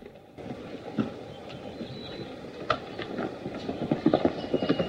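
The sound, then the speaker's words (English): Hooves clip-clopping as a horse gallops off, irregular sharp hoof strikes over a steady rough rumble that grows busier and louder toward the end. “Barlow mounts his steed and gallops off”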